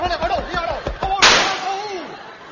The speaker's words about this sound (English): I shot him.